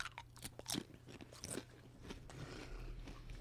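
Thin, crisp wild duck chips crunch as they are bitten, a few faint brittle snaps followed by softer crackling chewing, with no talk over them.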